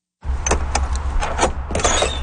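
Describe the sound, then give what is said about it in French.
Door of a small trailer being opened: a rattling, scraping noise starts abruptly and continues steadily, with a few sharper clicks along the way. “Il nous ouvre la porte de la petite remorque dans laquelle se trouvent ses derniers objets.”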